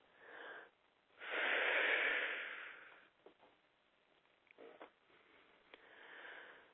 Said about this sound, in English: And take a big deep breath.